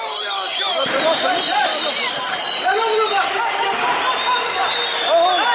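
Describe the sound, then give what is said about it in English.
Thousands of people rallying in the streets of Diyarbakir to mark an anniversary, a dense, loud, continuous roar of many voices shouting and chanting together. “The sound there of thousands of Kurds taking to the streets this week in the city of Diyarbakir”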